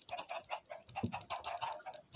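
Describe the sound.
Chickens cluck faintly while laying eggs, in a steady string of short, soft clucks with no talk over them.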